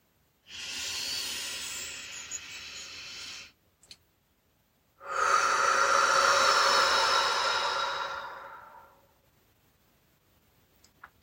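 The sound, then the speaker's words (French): Slow deep breathing during a guided walking meditation: two long airy hisses of breath, the second longer and fuller than the first, with no talk. “Prenez quelques respirations profondes par le nez et expirez par la bouche”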